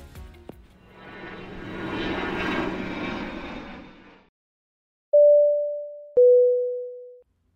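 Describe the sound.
An airplane's engine roar swells up and fades away over about four seconds, then two clear chime tones ring out alone, the second a little lower in pitch.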